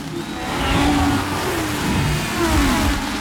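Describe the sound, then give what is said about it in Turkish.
Formula 1 racing cars roar past Niki Lauda's car as they overtake him during a race in Australia. The engine whine is continuous and high, swelling and easing twice with no voices. “Önceki sürücüler arasındaki fark giderek açılıyor. Nicky Lauda'nın dönüşü beklenildiği gibi olmuyor. Araçlar tarafından sollanıyor.”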